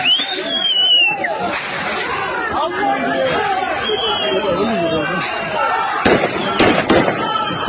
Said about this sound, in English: Here's the Russian mob firing warning shots at the police, not the other way around.